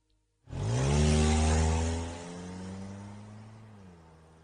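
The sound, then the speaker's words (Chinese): A car engine starts up and pulls away from a wooded spot. It begins with a sudden loud, low roar that holds for a moment, then eases into a steadier drone that gradually fades. “之后两人穿好衣服开车离开树林。”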